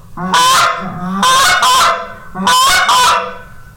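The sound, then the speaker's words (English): A short-reed goose call is blown in loud, raspy honks that come in quick succession, mostly in pairs. Softer low clucks come between the honks. “And this is another short reed goose call. It sounds like this.”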